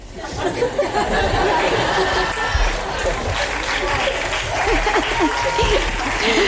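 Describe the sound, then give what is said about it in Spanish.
An audience laughs and applauds at a hip hop show with no music playing. Dense, steady clapping runs throughout, mixed with laughter and crowd chatter. “en un espectáculo de hip hop, de repente no hay música y hay muchas risas y aplausos de los espectadores.”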